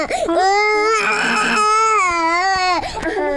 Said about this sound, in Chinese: 他这一天到晚的哭也不是个事儿啊！